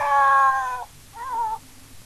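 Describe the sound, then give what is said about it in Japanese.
A cat meows twice, two clear, tonal calls. The first is longer and higher and the second is shorter, with a short pause between them. “さっきからニャーニャーニャーニャー泣いているのが、聞こえるかと思いますが”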